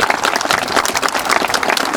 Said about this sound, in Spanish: Fuerte los aplausos, por favor.